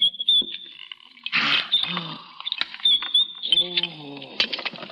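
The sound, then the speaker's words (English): A bolt slides in a tense moment, a short, noisy scraping rush mixed with thin, high metallic squeals and creaks, while people talk and exclaim around it. “Now, quickly. Quickly slide the bolt.”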